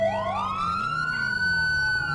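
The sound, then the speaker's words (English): A police car siren wails in a video game, one loud continuous tone that sweeps upward in pitch and then holds high and steady, with no voices over it. “That's a Los Santos police car! Good god. That's an AI on Los Santos police car.”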